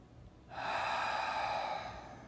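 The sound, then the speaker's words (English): A single deep breath taken during a relaxation and stretching exercise: a long, airy rush that begins after a brief quiet pause, holds steady for about two seconds, then eases off slightly at the end. “Take a few more deep breaths.”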